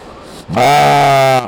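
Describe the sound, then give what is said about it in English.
A ewe lets out one loud, sustained bleat lasting about a second, buzzy and steady in pitch, starting abruptly after a quiet moment. “The sheep had no comment when I asked for her thoughts on Speaker Madigan.”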